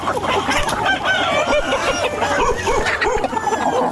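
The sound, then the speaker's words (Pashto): Clucking and crowing from a flock of more than thirty hens and roosters kept at the edge of a mud house in Ghazni province, a dense, loud, unbroken chorus of overlapping calls throughout. “درخانه د خپل خټین کور په یو څنډه کې تر دېش تانې زیات چرګي چرګان ساتلي.”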